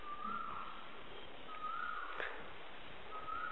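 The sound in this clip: A bird sings faintly: a few repeated, clear whistled notes rise over a steady background hiss, each separated by more than a second of quiet.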